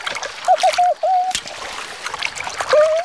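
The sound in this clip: A plush toy splashes into water, making a few brief, bright splashes and some trickling.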